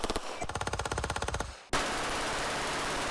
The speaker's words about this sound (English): with it essentially turning a semi-automatic pistol into a fully automatic machine gun. So your gun goes from this to this.